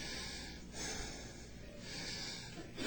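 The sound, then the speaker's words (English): A man catching his breath after preaching: loud, rough, snorting breaths and gasps run through the whole clip, swelling and easing in a few heavy waves with no talk. “Let this fat boy get his breath.”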